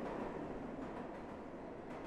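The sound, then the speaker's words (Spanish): Express train noise: a steady, continuous rumble with broad hiss and low roar, fairly faint and without distinct clacks. “El trío sube al tren express de las 7.47 para salir de la ciudad.”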